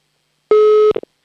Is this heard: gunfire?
no